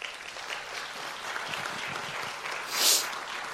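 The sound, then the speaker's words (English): Applause from a church audience welcoming a speaker to the stage during a morning service: dense, steady clapping that fills the whole clip, with a brief swell near the end. “Let's give Nick a hand this morning.”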